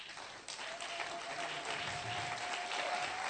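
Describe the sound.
An audience applauding in church: a continuous, fairly faint wash of many hands clapping that swells slightly after the first half second and holds steady.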